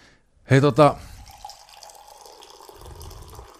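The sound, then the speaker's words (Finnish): Tea is poured from as high as a hand can reach into a cup, making a thin, steady trickle that runs faintly for a few seconds after a brief burst of voice. “teetä. Mä tässä samalla kaadan. Mä oon harjoitellut tämmöistä. Korkeammat, mitä käsi yltää.”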